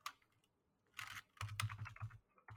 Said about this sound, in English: I typed in New Moon.